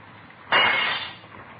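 A glass window being smashed: one sudden bright crash that spreads into scattering, crackling noise and fades over about half a second, then quiet.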